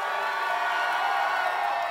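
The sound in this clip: A concert crowd at a Fourth of July show yells and cheers for an encore, a loud, continuous roar of massed voices and whoops with no breaks.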